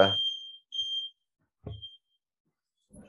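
Alarm going off: a few high-pitched electronic beeps of uneven length, separated by stretches of silence.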